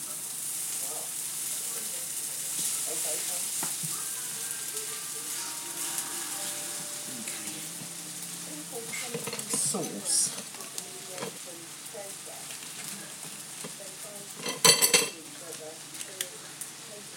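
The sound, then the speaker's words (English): Food sizzles steadily in a pan while a utensil stirs it, with scattered scrapes and clinks and a louder clatter near the end, as people talk over the cooking. “Give this a stir first. Oh, it's not burning. I don't think it is.”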